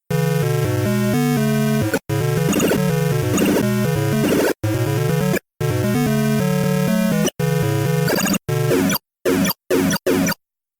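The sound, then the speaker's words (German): Two-voice square-wave chiptune music with game sound effects from Pengo on a KC85/2 home computer. Bright, buzzy, steady melody runs in long stretches broken by short silences, then ends in several brief choppy bursts. “Das ist ein Beispiel aus dem Spiel Pengo. Hier hören wir zweistimmige Musik, die immer wieder unterbrochen ist durch Spielesounds.”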